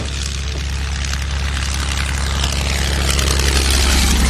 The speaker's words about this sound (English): The sound of the tanks has been concealed by low-flying aircraft